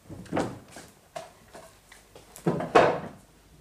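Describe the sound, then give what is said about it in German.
A wooden chair is lifted down from a tabletop: a few soft wooden knocks and scrapes in an uneven rhythm, fairly faint, the last two bumps louder and close together, with no talking. “Die Stühle alle noch auf den Tischen. Das stört mich nicht. Ich nehme mir einen runter.”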